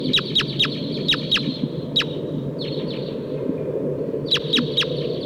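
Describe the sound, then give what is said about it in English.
Wild red crossbills of the Sitkensis type give sharp, high chip calls in quick clusters of two or three, with gaps between bursts, over a steady low rumble. “I hear wild crossbills here. It sounds like a Sitkensis type.”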